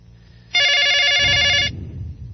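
Telephone ringing: a single bright, buzzy electronic ring about a second long, rising sharply out of faint background noise and cutting off to a low rumble.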